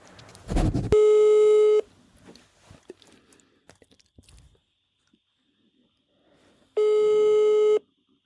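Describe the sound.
A telephone call placed on air: two long, steady, buzzing ring tones several seconds apart, with a sharp click before the first and small handling noises in between.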